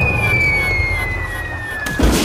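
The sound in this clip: A shot fired at a ship: a long, thin whistle steadily falls in pitch, then a short, heavy impact bursts out as it strikes the ship's rudder.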